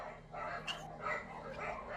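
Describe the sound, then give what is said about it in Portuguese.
Dogs bark in a few faint, quick yips and woofs over a steady background noise. “Nossa, os cachorros estão aqui, calma.”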